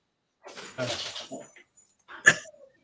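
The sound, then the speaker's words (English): A dog barks in short bursts at home, a few sharp yelps standing out over a faint background, with one loud, abrupt bark near the end. “hopefully that's not your neighbor's dog”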